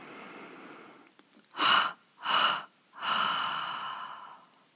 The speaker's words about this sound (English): And now take a gentle inhalation through the nose and a triple exhalation through the mouth.